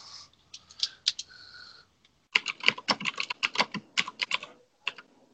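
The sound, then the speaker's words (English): Crisp keystrokes clatter on a computer keyboard, a run of clicks broken by a brief gap, then a faster, denser burst of typing and one last tap. “Let me uh, we just type "I am plastic, Rory."”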